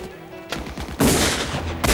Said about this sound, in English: One of Alex's men goes down with a bullet in the shoulder, but keeps firing.